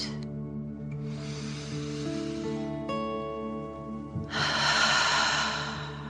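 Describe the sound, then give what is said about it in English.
A deep 'dragon breath' during a children's relaxation exercise: a long airy inhale followed by a stronger, louder exhale, both soft rushes of air over a steady, gentle musical drone. “Again, deep dragon breath in and out.”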